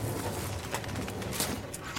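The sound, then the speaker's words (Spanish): Caged pigeons or doves cooing, a low, steady, murmuring coo over a dense hiss lasting about two seconds. “Las aves no deben estar en jaulas.”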